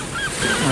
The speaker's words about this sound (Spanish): Graznido de gaviota.